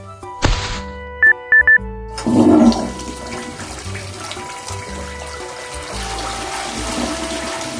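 A toilet flushes with a long, steady rush of swirling water. A single thunk and three short electronic beeps come just before it.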